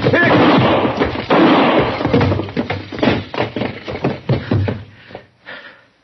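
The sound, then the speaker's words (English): Gunshots ring out during a tense standoff, a few loud booming blasts with rough, crackling noise between them, fading to quieter tails. “Don't shoot again, Chester.”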